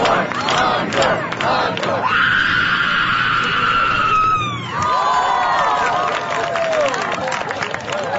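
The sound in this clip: A loud, sustained human scream at a screaming contest holds a high, steady tone for a couple of seconds, then gives way to a wavering, falling cry, with crowd noise and voices running beneath throughout.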